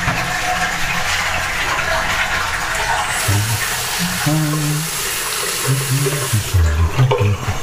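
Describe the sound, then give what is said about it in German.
Water runs from a tap for a rinse, a steady rushing hiss that holds throughout with some faint clattering and low tones mixed in. “So, fertig. Runde spülen.”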